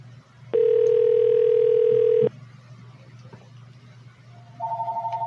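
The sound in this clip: A telephone rings: a steady electronic tone holds for under two seconds and cuts off, then after a pause a warbling, pulsing ring begins at the end.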